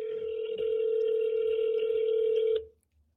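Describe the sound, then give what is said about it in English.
A telephone on speakerphone gives a steady, mid-pitched tone while a call fails to dial, holding level for about two and a half seconds before cutting off abruptly into near silence. “Well, she's gonna be on speaker. I don't know why it's not dialing.”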